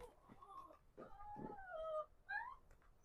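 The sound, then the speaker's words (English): Dog grumbling in faint, whiny moans, a few drawn-out nasal bursts that waver in pitch, with low background noise between them. “sorry, my dog is getting grumpy”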